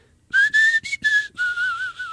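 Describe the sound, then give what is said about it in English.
A tongue-and-palate whistle, made without using the lips, sounds alone in a few short, clear notes, one slightly higher, followed by a longer, lower, wavering tone. “There's also tongue and palate whistling, which doesn't involve the lips at all.”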